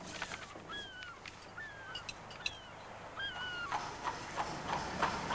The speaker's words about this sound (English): A London street. A horse-drawn carriage passes a very large red brick house.